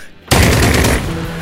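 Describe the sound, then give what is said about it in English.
Full-auto burst from a high-powered assault rifle: a dense, loud roar of rapid shots that starts abruptly and runs on without a break, easing slightly in volume toward the end. “like very high powered assault rifle like goes auto off at you.”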